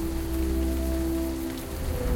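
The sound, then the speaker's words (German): Steady rain hisses evenly throughout, a dense, unbroken wash of noise with a low rumble underneath and a faint constant tone running beneath it. “Regen, Wind und Donnerschlag. Eigentlich Wetter zum Zuhausebleiben.”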